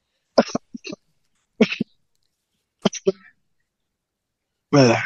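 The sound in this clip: Throat clearing and coughing from someone getting ready to speak: a few groups of short, raspy bursts separated by silence, ending in a longer, louder, harsher rasp.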